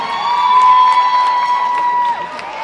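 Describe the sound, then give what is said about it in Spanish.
A crowd cheers and claps at a live cumbia concert to greet a percussionist. Bursts of shouting and applause ride over sustained instrumental tones, loud at first and easing slightly toward the end. “Miguel Caleb está con nosotros. Un aplauso fuerte.”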